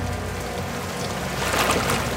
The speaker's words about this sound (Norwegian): så kommer politibåten, den røde gummibåten, kjørende. Det en solid ribb med kraftig motor.